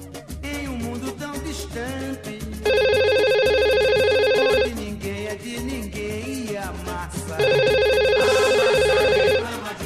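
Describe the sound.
Ringback tone of an outgoing phone call: two long, steady buzzing tones of about two seconds each, separated by a pause, over background music with a thumping low beat.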